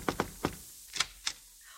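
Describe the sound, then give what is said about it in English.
Knocking on a door at a Paris residence: five quick raps in an uneven rhythm, two close together, then one, then two more, fairly faint and alone. “And when we got to Paris, I could hardly wait to get to her place and knock on the door.”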